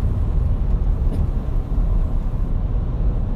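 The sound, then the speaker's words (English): Steady, broad road rumble from a car driving along on the way to a baseball game. The low, whooshing noise holds constant for the whole stretch, without distinct events or voices. “on the road, driving to a baseball game”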